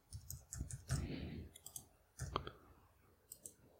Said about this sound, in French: Je me suis trompé, il faut cliquer sur Submit.